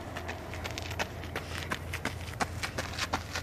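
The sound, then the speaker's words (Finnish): Footsteps of people running past outdoors: many quick, light footfalls in a steady, brisk rhythm, fairly faint over a low background hum. “Punaposkiset ihmiset juoksee ohi, kun me tässä istutaan.”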